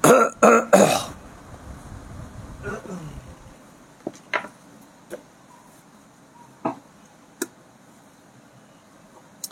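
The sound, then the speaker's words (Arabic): A few harsh coughs burst out in quick succession at the start, followed by quieter murmuring and several faint, sharp clicks. “لما توافقت القلوب جاءت الكحة واحدة”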